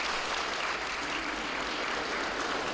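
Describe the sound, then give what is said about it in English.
Steady applause from an audience honouring young people at a formal address, a dense, even wash of clapping that holds at constant loudness throughout with no voices over it. “I want us to give them a round of applause.”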